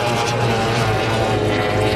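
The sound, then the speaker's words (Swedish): A Formula 1 racing powerboat speeds past on the water, its engine a loud, buzzing, high-revving drone that holds steady throughout. “Det lyder av båten.”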